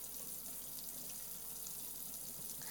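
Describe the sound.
Warm water runs from a tap to wet hair during a shampoo, a steady, continuous hiss that holds even throughout with no breaks.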